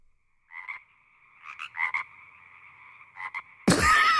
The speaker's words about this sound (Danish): Kan du høre? Så ja, er det en ny lille fræk frø.